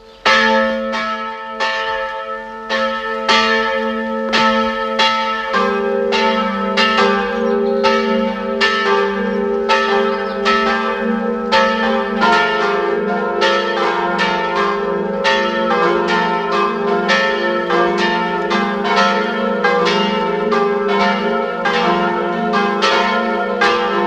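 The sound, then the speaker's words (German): The parish church bells of Werfenweng in Salzburg ring at noon, a loud, continuous peal of many overlapping strikes with several bell pitches layered together, the blend shifting as the ringing goes on, with no voices. “Es ist 12 Uhr. Es läuten die Glocken der Pfarrkirche Werfenweng, Land Salzburg.”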